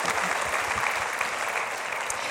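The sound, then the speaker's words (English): Audience applause at a prayer gathering: a steady, dense wash of many hands clapping together, fairly loud and continuous for the whole short stretch, with no voices standing out. “Well, yeah, sure. You can clap for that. Absolutely.”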